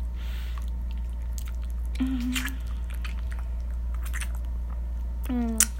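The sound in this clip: Wet, squishy kissing on a man's penis: soft smacks and slurps scattered over a steady low hum, with a couple of brief, low moaning vocal sounds.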